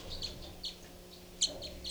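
Short, high bird chirps repeat several times in small clusters, quiet against a faint low background hum.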